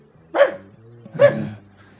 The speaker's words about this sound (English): Get that fucking dog out of here, could you?